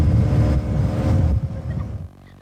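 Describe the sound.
A boat engine on a river, the Danube, gives a loud, dense, low rumble that holds steady and then drops off sharply near the end.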